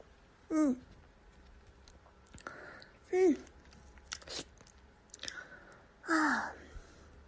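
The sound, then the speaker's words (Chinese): Someone eats plain noodles topped with chopped scallions. A few louder mouth bursts come at intervals, with soft chewing and clicking sounds between them. “现在吃面吧”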